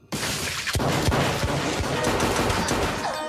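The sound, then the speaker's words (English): Pistol gunfire in a close-range shootout across a wooden floor by a sofa: several sharp, loud shots crack out in quick, dense succession, their echoes blending into a continuous roar through the passage. “As the brunette fires, Bob slides across the wooden floor and fires around the end of the sofa, felling the woman.”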